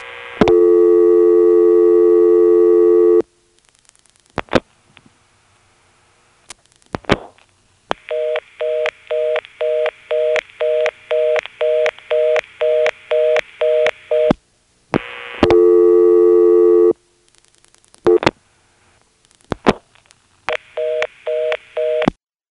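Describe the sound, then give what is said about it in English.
A telephone reorder tone sounds after a two-digit code is dialed on a Carolina step-by-step exchange. Loud steady tones alternate with short dialing bursts and clicks, then a long run of fast, even on-off beeps, and the whole pattern repeats. “Very often in a Carolina telephone step, you find this code that when you dial it, all of a sudden this reorder just seems to come on out of nowhere. Here, I'll demonstrate it.”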